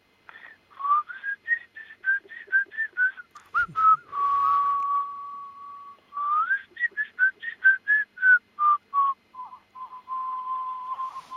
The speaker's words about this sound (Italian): mi fa una bella fischiettatina?